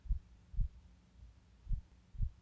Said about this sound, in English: Now I want you to synchronize your breathing with my heartbeat, if you can. Think of the heartbeats almost like a metronome.